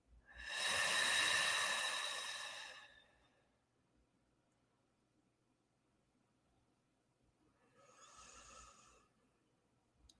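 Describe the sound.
Deep breathing during a guided meditation: a long, loud, breathy exhalation, then after a quiet pause a shorter and softer breath.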